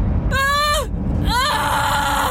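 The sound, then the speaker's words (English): A woman screams in a car, raw and jagged: two loud, high-pitched cries over a steady background rumble, the first held and then dropping in pitch, the second rising and then sustained. “I scream. I didn't plan to. It just tore out of me, raw and jagged, bouncing off the windows and back into my ears.”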